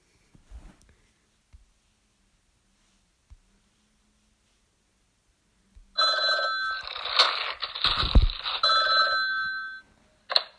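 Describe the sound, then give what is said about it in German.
Telephone ringing as a call is placed in a mobile video game: after several seconds of near silence with faint clicks, a loud, bright trilling ring sounds continuously for about four seconds. “Ich werde Ben jetzt gleich anrufen.”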